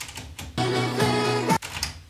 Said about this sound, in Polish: Tak więc teraz naciskam ten, który jest po, na prawo od synchro startu i synchro start.